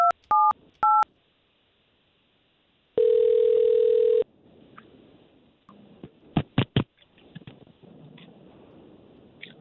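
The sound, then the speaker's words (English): A telephone is dialed with three quick touch-tone beeps, then a pause and a steady tone of about a second. Faint handling noise and a few more short tones follow. “we're going to try to call this young lady and see if we can't talk to her first”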